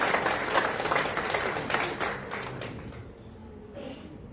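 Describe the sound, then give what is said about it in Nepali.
Applause from an audience at a church gathering as a speaker is called forward: a steady wash of many hands clapping, fairly faint, that thins out toward the end. “हामी उहाँलाई जोरदार ताली साथ अगाडि बोलाउँछौँ।”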